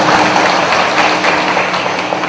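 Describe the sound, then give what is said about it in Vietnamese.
Loud, dense applause from an audience at a Buddhist teaching on worshipping the Buddha, a continuous roar of many hands clapping with no clear beat, sustained evenly throughout with no voices over it. “chưa rồi thì cho một tràng pháo tay”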